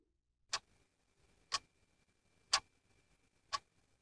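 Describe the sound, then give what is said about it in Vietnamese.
A clock ticking at night: four crisp, sharp ticks spaced evenly about one second apart, each standing alone against near silence. “Tiếng đồng hồ tích tắc cứ vang đều trong không gian yên tĩnh của đêm khuya.”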